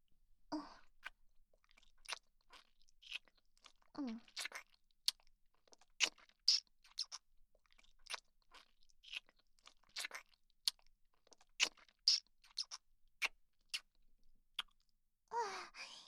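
Soft, wet kissing smacks: many quiet lip clicks and light smacking sounds in an irregular rhythm, with faint breaths and no talk.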